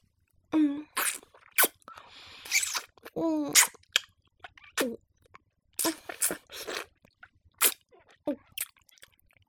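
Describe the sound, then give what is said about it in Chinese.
Someone eats a cold treat with crisp, crunching bites, many sharp bursts in an irregular rhythm separated by short quiet gaps. “你问什么声音吗？哎呀，人家在吃冷饮了。”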